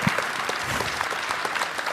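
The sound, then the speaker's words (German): An audience applauds with steady, moderately loud clapping, many hands blending into a continuous patter over two seconds with a few sharper individual claps standing out. “Applaus.”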